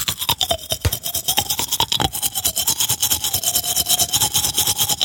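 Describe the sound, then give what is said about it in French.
Toothbrush bristles scrub rapidly as a man brushes his teeth, shaping his mouth so the scrubbing takes on a wavering tone that traces a familiar spy-film theme melody, steady and continuous throughout. “C'est un gars qui se brosse les dents. Mais est-ce que vous avez entendu la mélodie quand même? Parce qu'il a, évidemment, c'était James Bond, j'ai reconnu.”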